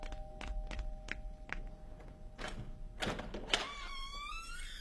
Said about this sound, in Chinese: 来人了吗？ 开门去。